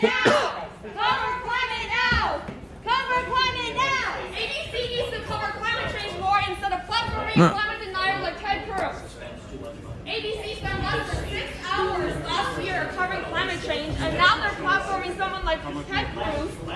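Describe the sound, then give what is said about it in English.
A studio audience goes wild during a television show, with loud overlapping shouting and cheering from many voices. The bursts of yelling surge and ebb without a break. “Speedy sent me a clip of the audience going nuts. Yeah, that's the part I saw. Yes. And do you guys want to yeah, see that? Yeah, let's see this. This is where they had to go to commercial break.”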